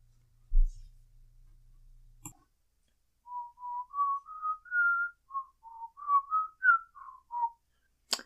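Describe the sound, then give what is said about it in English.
Human whistling a tune: many short and held clear notes in a steady mid-high register, whistled alone after a brief low rumble and a sharp click at the start. “I should get a record deal for whistle singing or some shit like that.”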